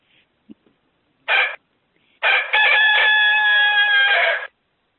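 Chickens in a house: a rooster crows and clucks, with one short loud call followed by a long, drawn-out crow lasting about two seconds, with no talk over it.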